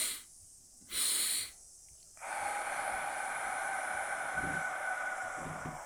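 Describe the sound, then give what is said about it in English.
Nasal breathing during a relaxation exercise: short, quick inhales through the nose, then a long, steady, breathy exhale like a sigh that lasts several seconds. The breaths are quiet, with no other sounds. “So 2 inhales through the nose. Exhale longer. Like a sigh. Now 2 more of those.”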